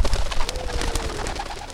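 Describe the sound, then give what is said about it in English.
Pigeons released from a cage before a crowd take off, with many rapid wing flutters in a dense burst. Soft cooing is heard among the flapping. “It's also why Terry scans the sky before he gets ready to open the cage and release the pigeons for the crowd.”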